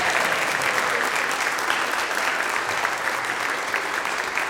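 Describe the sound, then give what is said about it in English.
An audience applauds the children's cast at a Christmas pageant with a dense, continuous wash of clapping that holds at a steady, full level throughout. “Can we give them a hand for all of their help telling our story?”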